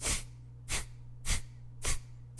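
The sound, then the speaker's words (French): Rapid, forceful exhalations through the nose from someone standing bent forward with the back rounded, repeated in a steady rhythm of short breathy bursts over a faint, constant low hum. “en ayant le corps avec le dos légèrement arrondi, le nez penché en direction du sol alors que je suis debout, je vais inspirer, expirer rapidement en faisant ça.”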